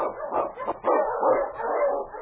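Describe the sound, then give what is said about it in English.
An Eskimo sled lead dog barking: a few sharp yips and barks, then a drawn-out, whining bark that holds for the rest of the moment, moderately loud. “The Wonder Dog King, swiftest and strongest of Eskimo lead dogs, blazes the trail through storm and snow for Sergeant Presson”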